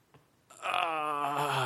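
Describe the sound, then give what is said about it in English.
A human voice imitates a groan: one sustained, low, sigh-like moan that starts partway in and holds a steady pitch at even loudness to the end, with near silence before it. “So I'll give my impersonation of a groan. All right, ready? Here's a groan.”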